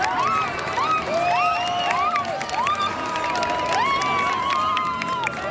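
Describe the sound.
An audience cheers and shouts during a stage appearance by a cyclist. The crowd noise is loud and continuous, with many high, rising shrieks and whoops layered over it.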